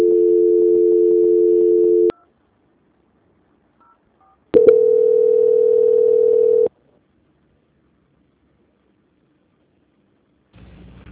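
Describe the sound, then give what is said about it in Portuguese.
Telephone tones while a call is transferred: two long, steady mid-pitched tones separated by silence with a couple of faint short beeps, then a brief burst of noise at the end. “Alô, transferindo a ligação.”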